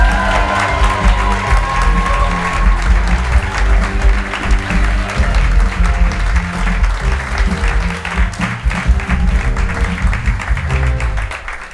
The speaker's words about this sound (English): Put your hands together for Janey Godley!